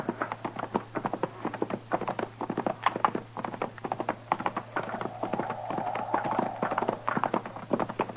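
Horses' hooves clip-clop in a steady, even rhythm as riders ride over toward a hackberry tree, with many crisp hoof beats continuing for about eight seconds.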